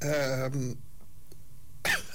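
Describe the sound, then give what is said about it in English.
A single short, sharp cough comes after a moment of quiet that follows a brief bit of speech. “Sorry, I've got to do it because I'm having a cough.”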